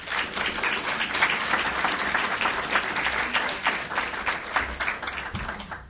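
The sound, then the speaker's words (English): An audience welcomes a guest lecturer at a formal lecture on citizen diplomacy with brisk, dense applause. Many individual claps stand out in an uneven, fluttering rhythm that stays lively throughout. “Please help me in welcoming Mary Kane.”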